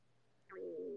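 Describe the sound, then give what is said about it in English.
A stomach rumbling: a faint, brief gurgling growl begins about halfway through, a short squeak followed by a low, sustained tonal groan that holds to the end. “Oh, that's my stomach. I hope you didn't hear that.”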